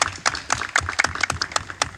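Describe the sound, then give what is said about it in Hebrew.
Audience hand clapping for Lod's deputy mayor: many sharp, uneven claps in an irregular rhythm, with loud and quieter claps mixed together. “תנו לו כפיים, בבקשה, חברים.”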